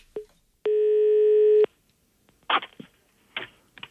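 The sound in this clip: A telephone line tone after the other party hangs up: one steady, moderately loud beep lasting about a second, followed by a few short, soft rustling bursts.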